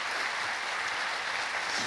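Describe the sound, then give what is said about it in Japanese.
An audience applauds young Soto Zen monks at a Gifu prefecture youth association's 50th anniversary lecture gathering. The clapping is a steady, even wash that stays at the same level throughout. “あのお坊さんたちに拍手してください。”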